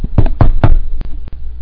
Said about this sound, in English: that's when he wakes from his vision and there's a knock on the door, and it goes like this.